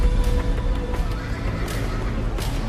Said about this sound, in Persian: سوار اسباتون بشین و دنبالمون بیاین.